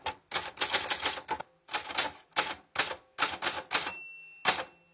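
Rapid clacking keystrokes come from a great-grandfather's old typewriter, typed in several quick bursts separated by short pauses.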